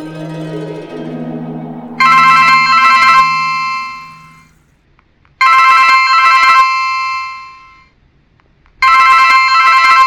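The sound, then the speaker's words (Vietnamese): A telephone rings late at night after a number is dialed. A lower tone comes first, then three loud electronic ring bursts at an even pace, separated by quiet gaps, with no talking. “Do dự một lát, ông vẫn bấm số máy của nhà báo Nhật Bản Inose.”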